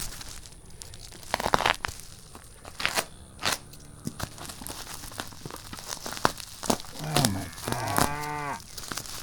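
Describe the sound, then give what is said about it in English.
A knife cutting through plastic tape and bubble wrap around a small packaged can: irregular bursts of rasping, crackling and tearing, with squeaky, rubbing plastic sounds near the end. “Whatever this is wrapped up in a lot of plastic tape and plastic bubble wrap. I gotta put the microphone down again so I can do some knife.”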